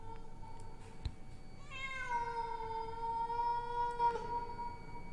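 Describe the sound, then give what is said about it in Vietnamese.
A black cat in a yard gives one long, drawn-out meow, a clear harmonic cry that swells and holds steadily for several seconds over faint background hiss. “Trong lúc mọi người còn đang dấm dứt khóc thì tự nhiên con mèo nó lại kêu lên.”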